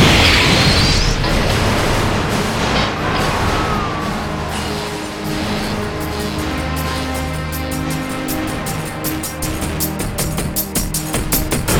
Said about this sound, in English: What the hell is this thing? It's a bomb. It's a... boom.